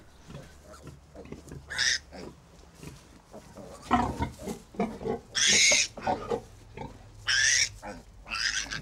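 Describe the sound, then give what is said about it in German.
A sow in a pig stable with her piglets grunts and snorts, and several loud, high squeals break out between the lower grunting. “die stolze Muttersau, spaziert durch den Stall.”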